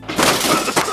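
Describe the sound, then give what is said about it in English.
Demolition smashing during a bathroom renovation: a dense, harsh burst of splintering and cracking that lasts about a second, with a second sharp hit near the end. “This is the sound of renovating your bathroom.”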